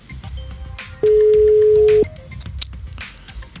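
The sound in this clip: A telephone rings on an outgoing call as a single long, steady tone of about a second over low background noise.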